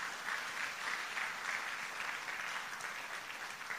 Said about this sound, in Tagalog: Pwede bang palakpakan natin ng Panginoon?